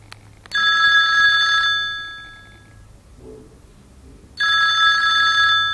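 A telephone rings on an outgoing call: two loud, steady electronic ring bursts with a bright bell-like tone, separated by a pause of quiet line noise.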